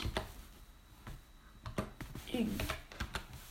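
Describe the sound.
Computer keyboard typing while looking up a Minecraft server, a series of sharp, faint key clicks in uneven bursts, with a person talking in between.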